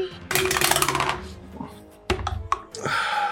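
Dice roll in a tabletop role-playing game, opening with a rapid, bright rattle of clattering plastic. A few sharp, separate clicks follow as the dice settle.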